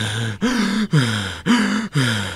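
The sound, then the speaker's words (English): Deep, drawn-out breaths with a voiced, sighing tone come in a steady series of separate pulses, each gliding slightly in pitch, with no talk. “Take a deep breath.”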